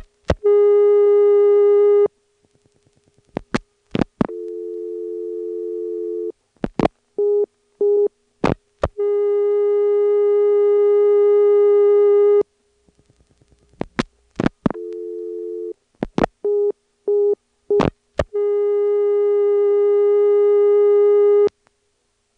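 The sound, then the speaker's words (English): Telephone tones on an outside line as 9 and then 1 are dialed and a long distance restrictor blocks the call: a steady harmonic tone is broken by bursts of sharp dialing clicks, then the tone resumes. The whole sequence plays twice. “demonstration of the long distance restrictor, the device that prevents you from dialing 1 on an outside line. And let me demonstrate dialing 9 and then trying to dial 1.”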